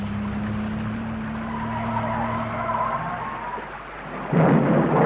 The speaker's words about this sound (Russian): Гроза, что ли, испугалась? Боюсь.